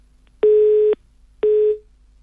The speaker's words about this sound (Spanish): ¿vas a escuchar el tono? Y luego del tono, le dejás ese audio, ese mensaje